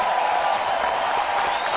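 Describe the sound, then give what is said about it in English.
An audience claps for a guest on a radio show, producing loud, dense, even applause that fills the whole moment without a break. “Put your hands together, bring them apart again to make clapping noises for Mr. Ian Lee.”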